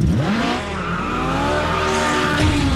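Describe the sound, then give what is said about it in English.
A Ferrari sports car engine roars with a loud, throaty, continuous growl. Its pitch climbs briefly at the start, then holds fairly steady, with a hint of tyre squeal. “What a noise, the roar. That is surely the most famous sports car engine sound of them all. It is of the Ferrari, of course”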